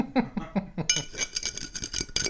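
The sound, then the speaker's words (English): A glass rim is rubbed in red salt, giving gritty, crunchy scraping rasps with light glass clinks. The rasps come in quick, uneven bursts that grow denser in the second half. “So I'm rimming the glass. Okay. Oh, what a great, nice rim. I'm great at it, aren't I? Crusty and red.”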